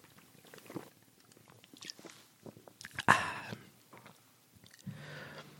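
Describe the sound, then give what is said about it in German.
A sip of a drink gives a brief wet gulp with a sharp, loud swallow or slurp near the middle, among faint smaller mouth sounds. “Ich muss mal kurz einen Schluck trinken im Moment.”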